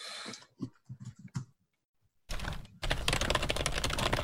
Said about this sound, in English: So, that's, I can't type, apparently.